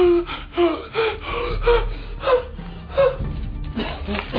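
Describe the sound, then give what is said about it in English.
A person hyperventilates, gasping for breath in a run of ragged, rhythmic gasps, each with a strained, whimpering voiced edge. “He's hyperventilating.”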